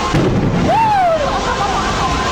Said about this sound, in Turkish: Samsun'un Tekkeköy ilçesinde tüp gaz bayisinde çıkan yangında tüpler peş peşe patladı.